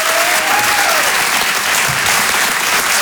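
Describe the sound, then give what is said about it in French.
Loud, sustained applause from a comedy club audience giving an ovation, dense steady clapping that holds at full strength without a break. “Je vous demande une ovation, s'il vous plaît, pour Céline.”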